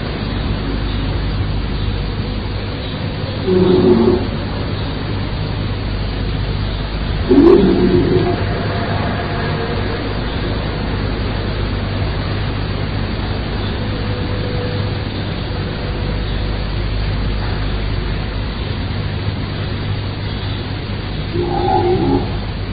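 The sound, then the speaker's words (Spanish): Strange roars in a paranormal recording surface as a few faint, low growling bursts through a steady, dense hiss that fills the whole recording. “tras escuchar lo grabado, me di cuenta de que habían aparecido unos rugidos extraños que poco a poco se iban transformando en palabras.”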